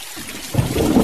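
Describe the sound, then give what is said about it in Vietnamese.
Steady rain hiss with a low rumble of thunder that swells in partway through and keeps rolling, loud and deep beneath the rain. “Lúc này mưa vẫn chưa tạnh, tiếng sấm ì ầm không dứt.”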